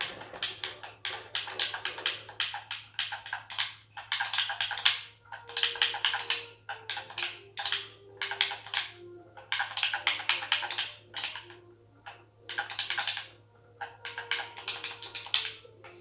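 Short text typed on a computer keyboard: quiet clusters of quick key taps come in bursts with brief pauses, over a steady low hum.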